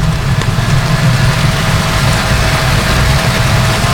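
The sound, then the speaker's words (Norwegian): A limousine carrying the royal family drives past, heard as a loud, steady low engine rumble with a broad layer of background noise that barely changes over the few seconds. “Og der kommer også limousinen med kongefamilien. Og dronning Sonja kjørte også nettopp forbi, kunne vi se her.”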